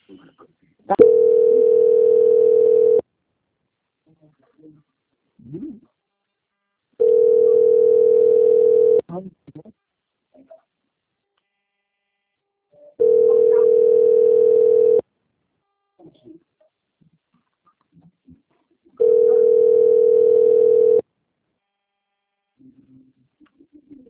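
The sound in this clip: A telephone line tone plays while a call is being transferred: four steady, mid-pitched beeps, each about two seconds long, repeating at even intervals with quiet gaps between them.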